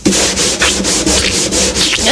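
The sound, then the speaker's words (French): Sandpaper rasps loudly in rapid, regular back-and-forth strokes as someone sands a conch shell, each pass a bright scratchy swish, with no other sounds. “j'ai trouvé du papier pour poncer mon lambi”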